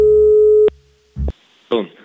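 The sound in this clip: A telephone tone sounds while a prank call is being placed: a loud, steady pure tone holds for most of a second and cuts off abruptly, followed by two short, lower bursts after a brief gap.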